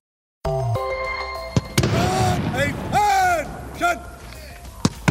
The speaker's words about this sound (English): That is the sound of cannons being fired in Canberra yesterday as Australia formally proclaimed the accession of King Charles III.